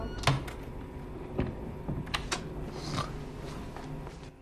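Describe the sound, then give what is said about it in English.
A bedroom door is shut carefully, giving a few faint clicks and soft knocks spread out over a quiet background, with one slightly firmer muted thud early on. “Caroline unlocks Ben's bedroom and heads inside. She carefully shuts the door.”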